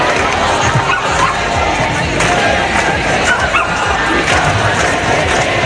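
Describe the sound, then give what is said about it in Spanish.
Crowd noise from a protest march against housing decrees in Valencia: a dense, loud, continuous din of many voices that holds steady throughout without pause. “Este es el sonido de la marcha que comienza ahora mismo en Valencia.”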